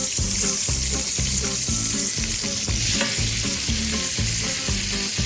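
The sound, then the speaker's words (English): Onion and peppers frying in extra virgin olive oil make a loud, steady hissing sizzle, with rhythmic music playing underneath throughout. “Now, I'm going to add about a quarter cup more of extra virgin olive oil and our onion and peppers.”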